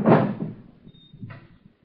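A drawer is pulled open: a loud thump that quickly fades, then a brief, quieter scraping rattle as it slides, with no voices.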